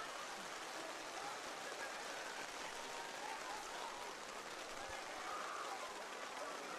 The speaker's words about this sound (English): Well, we've had pockets of heavy rain tonight, and we're getting one right now.